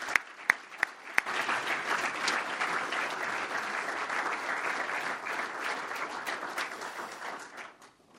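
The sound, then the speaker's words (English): Audience applause welcoming a lecture speaker: a few isolated claps, then sustained, dense clapping from a crowd that holds steady and fades out near the end. “So without further ado, please join me in giving a warm welcome to Dr. Oliver Crisp.”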